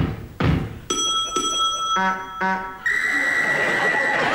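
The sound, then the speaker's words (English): Walking-stick clumps on the floor, then two bright bell rings, two hoots of a horn and a long steady whistle, each sounded in turn with no talk. “That was two clumps with her walking stick, two rings on the bell, two hoots on the horn, and one whistle.”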